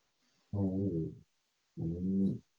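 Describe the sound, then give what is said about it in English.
A person vocally imitates a dog retching from poison, giving two separate guttural, voiced heaving bursts of similar length with a short silence between them. “That was the dog retching from the poison.”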